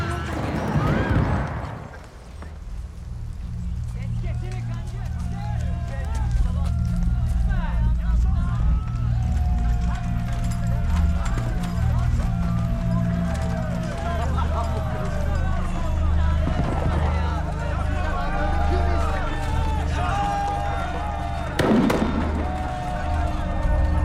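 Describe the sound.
Mules pulling a cart clip-clop with steady hoofbeats through a dense, continuous rumble of noise, while voices and a crowd clamor over them.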